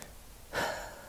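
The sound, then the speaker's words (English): A single quick, airy inhaled breath during a guided breathing exercise, faint and soft, with no speech. “Come on. Breathe in, breathe out. Let's do it again.”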